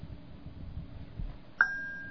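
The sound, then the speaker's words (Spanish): A single strike on an agogó, the Brazilian bell instrument, rings out as a clear, sustained metallic tone that slowly fades, following a quieter stretch of low rumble. “ya que estamos en Brasil, también trabajan con el agogó, que este es un instrumento...”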